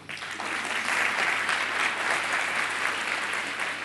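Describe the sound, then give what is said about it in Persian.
Audience applause at a motivational talk, a steady, full roar of many hands clapping at once that holds evenly at a strong level from start to end, with no voices on top. “برای این دو شخصی دست بزنید”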